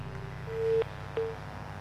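Telephone busy tone after a call is cut off: two steady electronic beeps, a longer one followed by a shorter one, over a low constant hum.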